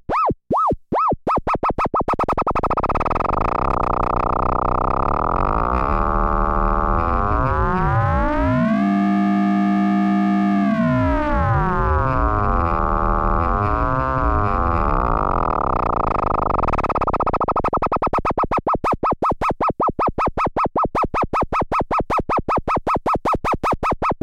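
A synthesizer oscillator module called Angle Grinder is raised from slow LFO speed into audio rate. A few separate clicks merge into a continuous buzzy tone that sweeps down and back up, then breaks into fast ticking pulses.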